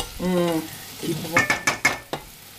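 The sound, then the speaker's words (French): Butter melting and sizzling faintly in a pan, a soft hiss with a few sharp clicks and clacks of a utensil against the cookware. “On entend un petit peu. Ah. Là, il y a beurre qui fond, là.”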